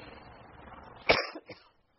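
One sharp, loud cough bursts out over a faint low hiss, followed by a smaller rasping catch, then near silence.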